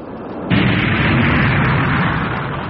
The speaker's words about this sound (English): All jets firing.